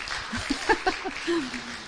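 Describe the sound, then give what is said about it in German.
Applause from a church audience after a prayer, moderately soft clapping mixed with a few cheering, whooping voices that rise briefly above it. “Komm, noch mal einen dicken, fetten Applaus.”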